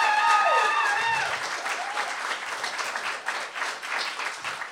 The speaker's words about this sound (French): je voudrais qu'on donne vraiment un tonnerre d'applaudissements à Audrey qui a tout organisé la soirée de ce soir